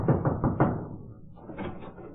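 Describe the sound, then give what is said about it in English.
Knocking on an office door: a few quick, fairly loud raps in close succession, followed by a lower, softer rumbling sound. “I went up to an office one day and knocked at the door.”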